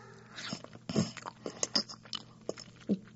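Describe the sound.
Chewing on a green leaf, as by a caterpillar: many faint, crisp, irregular crunching bites and nibbles, some sharper than others, with no talking.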